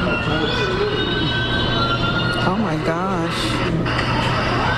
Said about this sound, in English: That sound is from a smartphone video of three guys on motorbikes boarding an Uptown F.